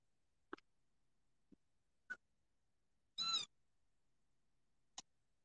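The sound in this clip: A fussy kitten meows once, a short high-pitched cry with no talk over it, set among a few very brief, faint squeaks or clicks spread across an otherwise quiet stretch.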